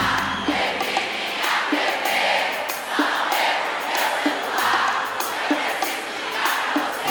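Live concert audience cheering and making noise during a show being filmed for a DVD: a steady, loud crowd roar with regular rhythmic pulses about every second throughout.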